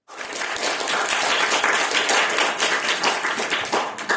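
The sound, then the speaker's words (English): An audience applauds to welcome speakers to the stage: dense, loud clapping that swells in quickly and stays steady for about four seconds, with no voices. “Now, please put your hands together and welcome to the stage Sarah Edwards and Merve Emre.”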